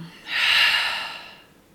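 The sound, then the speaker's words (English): A deep breath taken during a guided breathing exercise of full inhales and open-mouth exhales: a single long, airy rush that swells quickly, holds, then fades out, heard alone without talk. “So deep inhale, filling up. And big exhale, let it go.”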